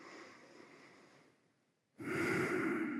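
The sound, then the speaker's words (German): Slow, deliberate breathing during a guided relaxation exercise: one long, soft breath gradually fades out, a brief near-silent pause follows, then a louder, fuller breath begins. “Gerne ein paar bewusste Atemzüge erstmal.”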